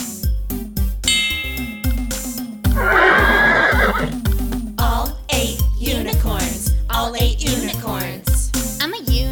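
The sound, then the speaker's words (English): Horses galloping: hoofbeats in a steady, quick rhythm, with loud, repeated whinnies and neighs over them throughout. “So they pulled and pulled and pulled until she was free. And then they all galloped into the sunlight and lived happily ever after.”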